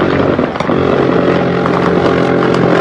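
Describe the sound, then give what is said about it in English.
A helicopter fires a minigun with tracers on a cartel target, producing a loud, unbroken buzzing roar with engine drone beneath it. The sound stays dense and steady throughout. “That's a helicopter firing on the cartel. That is a helicopter. They take a black. A minigun with tracers.”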